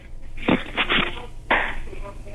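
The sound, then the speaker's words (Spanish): A raw egg being cracked open and poured gives a few short, crisp crunching bursts, moderately loud over a light background hiss. “Pero ya lo rompiste. Muy bien. Rompe el segundo y viértelo.”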